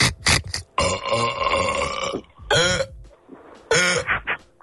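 Loud belches recorded into a microphone. A long, drawn-out burp is followed by two shorter, throaty ones, with a few brief clicks at the start and no talk.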